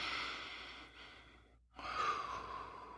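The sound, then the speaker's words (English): Faint, airy nasal breathing is heard alone: a soft, fading exhale, a brief pause, then a sharper breath drawn in through the nose. “I'm going to do another nose breath here to get these dust bunnies off my brain.”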